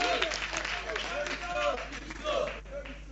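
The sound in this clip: Clapping from the audience at a high school debate as the debaters are welcomed, a dense patter of hands running under talk for the whole few seconds.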